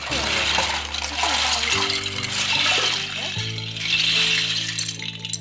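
Toy blocks poured out onto a classroom floor make a continuous clattering rattle of many small pieces tumbling together, heard over steady background music.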